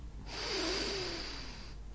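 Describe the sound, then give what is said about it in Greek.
A sharp exhale through the nose during a children's breathing game for blowing small paper scraps. It is one faint, sustained breathy rush lasting about a second and a half, heard alone. “Και πνέουμε από τη μύτη.”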